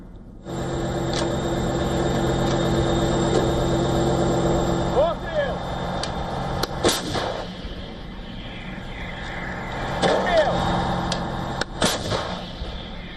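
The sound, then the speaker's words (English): A domestically produced, self-propelled howitzer fires on dugouts in the Donetsk region: a few sharp, heavy booms break through a continuous low engine rumble. “in the heavily contested Donetsk region, Ukrainian troops and artillery targeted Russian dugouts with a domestically produced, self-propelled howitzer.”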